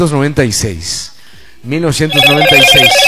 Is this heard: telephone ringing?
yes